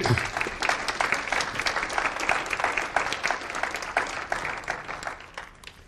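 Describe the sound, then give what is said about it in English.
An audience applauds to welcome a speaker with a sustained burst of dense clapping that holds steady and then fades away toward the end. “Welcome. Give him a hand.”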